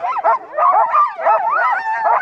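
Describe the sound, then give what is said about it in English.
Sled dogs in harnesses, clipped onto a gang line before a run, yap excitedly. Shrill, husky barks and yips overlap in a loud, continuous chorus, with howl-like bends in pitch. “But when Mountain pulls the snow hook, the shrill, husky yapping disappears, replaced by the soft squeak of snow under sled runners”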